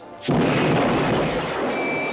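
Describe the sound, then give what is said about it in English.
A gunshot from a gun: a sudden, loud burst that is followed by a sustained, broad roaring rumble lasting about two seconds. “Will you shoot that gun? Can you teach me?”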